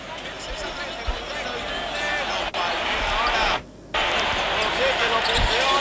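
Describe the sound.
A basketball is dribbled up the court by a Real Madrid player in a professional game: a few dull, muffled bounces under steady crowd noise, while a commentator talks over them.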